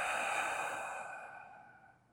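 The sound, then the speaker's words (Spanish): A single long, deep exhale during a square-breathing mindfulness exercise, soft and airy, strongest at the start and gradually fading away. “toma tres respiraciones profundas, inflándote por completo al inhalar y relajando al exhalar.”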